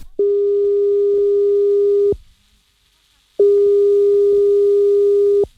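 Telephone ringing tone while placing a call: two long, steady, mid-pitched tones of about two seconds each, separated by a short silence, with no voices.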